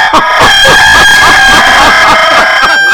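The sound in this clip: A rooster crows loudly and continuously, a harsh, strained call dense with overtones that fills the whole stretch, with no voices over it.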